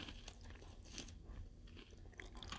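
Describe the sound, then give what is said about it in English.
Crisp crunching bites and chewing of a matcha Pocky stick with thin frosting, a few sharp snaps followed by quiet, close mastication, with no talking. “with something like a Pocky Stick, the frosting is spread very thin on here. I gotta kind of take a couple bites to really take in the flavor.”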